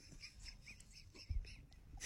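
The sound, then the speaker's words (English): Seagull calls at a waterfront amphitheater: a few faint, high, nasal cries repeat in quick succession over a low rumble of background noise. “There's a seagull.”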